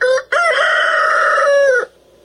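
A rooster crows loudly: a short opening note, a brief break, then a long, sustained, strained call that cuts off abruptly into silence.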